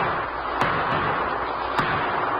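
Gunshots ring out as two sharp, sudden cracks about a second apart, with a fainter snap between them, standing out over a steady background hiss.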